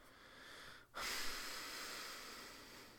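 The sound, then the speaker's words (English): An extended exhale: after a brief gap, a steady, breathy rush of air lasts about two seconds at an even, moderate loudness, heard alone. “That was an extended exhale.”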